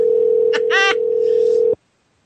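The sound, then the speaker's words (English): A steady telephone dial tone hums on one unbroken pitch while a call to a guest is being dialed. It is loud and continuous, then cuts off abruptly near the end. “I'm dialing now for you, sir.”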